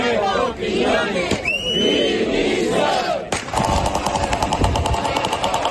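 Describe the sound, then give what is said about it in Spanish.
Crowd of about five hundred people at a firefighter-led protest rally outside the Cortes de Castilla y León, shouting loudly and steadily. Partway through, a fast, regular beating joins the din and continues to the end. “Este era el sonido a las puertas de las Cortes de Castilla y León esta mañana, una concentración con medio millar de personas liderada por bomberos”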